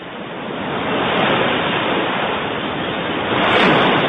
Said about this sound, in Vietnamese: Lúc này cả bọn đã tới sát bờ biển, tiếng sóng dỗ vào bờ đá ầm ào bất tuyệt.